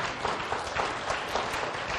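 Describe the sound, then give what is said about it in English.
Applause from an audience, a dense, steady patter of many hands at moderate level that continues evenly from start to finish with no speech over it. “And I know that an applause is all for her.”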